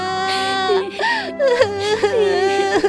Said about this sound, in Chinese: 这段时间一直强忍悲伤的梅格，把袜子抱在胸口，嚎啕大哭了起来。